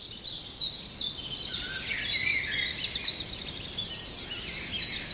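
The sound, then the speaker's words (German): A common chiffchaff singing: faint, high chirping notes repeated in a quick series over a steady outdoor hiss. “Jetzt müsste der Zilpzalp schön zu hören sein.”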